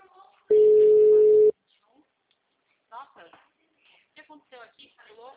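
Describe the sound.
A single steady telephone ringing tone, mid-pitched and lasting about one second, followed after a pause by people talking.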